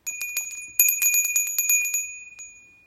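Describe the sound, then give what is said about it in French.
A small bell rung to close a guided relaxation session, many rapid high, bright tinkling strikes in a flurry that then thin out and let the clear ring fade into silence. “Et au son de la clochette, je vais pouvoir me remettre doucement, tranquillement dans le mouvement.”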